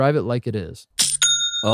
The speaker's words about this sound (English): I love that sound. It's the sound of another sale on Shopify